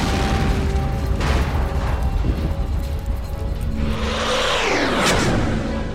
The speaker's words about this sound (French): Il plonge à l'instant où une bombe explose, faisant croire à sa destruction.